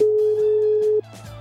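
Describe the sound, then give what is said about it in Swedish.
A telephone tone sounds while a call is placed: one steady, mid-pitched tone held for about a second, then cut off, leaving only a faint low hum. “får jag nog ringa en rådgivare”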